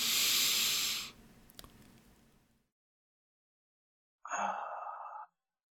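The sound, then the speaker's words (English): A person breathing in through the nose and then exhaling during a guided breathing exercise. A loud airy rush fades into a softer breath, then a pause of silence, then one more short breath sound. “Breathe in through your nose.”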